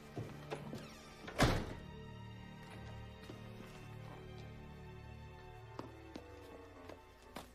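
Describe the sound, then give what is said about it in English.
A door being closed shut, heard as one sharp, heavy thunk standing out above a low, steady hum, with a few faint clicks and taps scattered before and after it. “he leaves and closes the door behind him”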